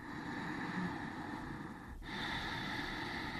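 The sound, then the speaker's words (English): Ujjayi breath, a yogic pranayama breathing technique, demonstrated right into a microphone: a soft, airy, throat-constricted rush that holds steady, breaks off briefly midway, then resumes slightly stronger. “So one example is of a pranayama you might do in a yoga class is called ujjayi breath, which is, in fact, I can do it right here into the microphone so people can hear. It goes like this.”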